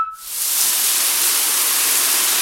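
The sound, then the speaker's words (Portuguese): Shower running water, a broad, even hiss of spray that starts abruptly and then holds steady and fairly loud, with no voices. “Pode até parecer barulho de chuva, mas se chama desperdício. Um chuveiro ligado gasta, em média, 12 litros de água por minuto.”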